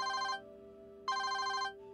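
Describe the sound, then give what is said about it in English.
A mobile phone rings one evening in two bursts of a bright, steady electronic tone separated by a short pause, over a constant low hum. “One evening, my phone rang.”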